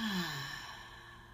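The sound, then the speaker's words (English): A deep cleansing breath released as one long exhale, a soft, low voiced sigh that slides downward in pitch over a breathy hiss and trails off quietly. “And our third deep breath and cleansing breath together. Breathe in and out.”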